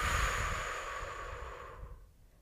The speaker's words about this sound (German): 4 Sekunden lang durch den Mund ausatmen.